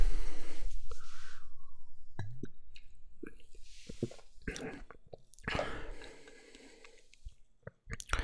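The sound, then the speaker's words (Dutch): Swallowing and gulping from a small 250 ml bottle of soft drink: a run of soft, wet, squishy noises with a few sharp clicks, fairly faint and with no talk. “Ik ga hem eens drinken.”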